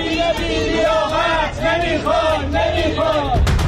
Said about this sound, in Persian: هواداران استقلال به سیاست‌های نقل و انتقالاتی از دست دادن ستاره‌ها و عدم جذب بازیکنان بزرگ اعتراض دارند و علیه مدیران این باشگاه شعار دادند.